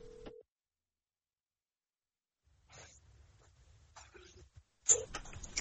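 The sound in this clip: Telephone line tones as a call keeps dropping: a short steady tone at the start, a few seconds of near silence, then faint crackles and line noise, ending in another brief tone and a burst of static.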